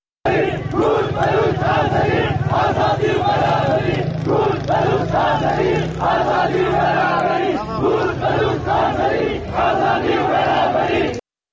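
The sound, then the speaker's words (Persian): A crowd in Piranshahr, Iran, at a funeral, chants 'Kurd, Baluch, Azeri, equality, freedom' in loud unison, the slogan repeating in a steady rhythmic cadence throughout. “همچنین مردم در این شهر شعار کرد، بلوچ، آذری، برابری، آزادی سر دادن که میتونیم صدای مردم پیران شهر رو بشنویم.”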